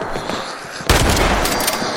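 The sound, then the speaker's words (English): Gunfire in a shooter video game, where the player is already under fire: harsh noisy crackle, then a sudden loud burst about a second in, followed by dense, sustained firing to the end. “I'm already getting shot at.”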